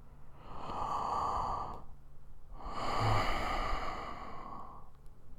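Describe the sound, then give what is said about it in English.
Deep guided breathing: two long, slow breaths, each a steady breathy hiss that swells and fades, heard alone without talk. “Every single breath is just taking good energy and pushing out all the bad energy.”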